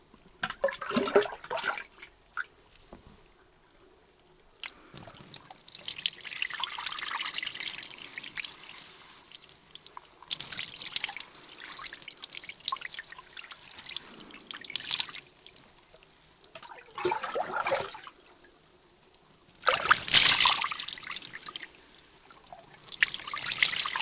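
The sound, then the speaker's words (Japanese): Hot running water rinses something away in bursts of splashing and trickling that come and go over many seconds. It is quieter between pours, with a louder gush near the end. “湯で流してしまいます。”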